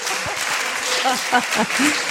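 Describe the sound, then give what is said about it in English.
Applause from an audience at a church festival gathering, a steady dense clatter of clapping hands with voices talking over it. “And give Michelle a warm round of applause, please.”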